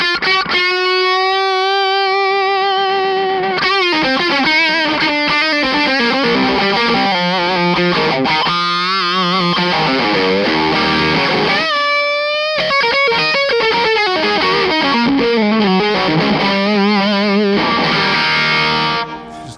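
Harsh, distorted guitar tone through an effects pedal, fuzzy and unstable, as if about to fold in on itself. Loud sustained notes shift and wobble continuously, with dense buzzing overtones throughout.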